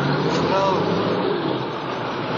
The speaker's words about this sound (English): Seeing the school bus beginning to drive away, Virgil takes aim, only to be stopped by Caesar.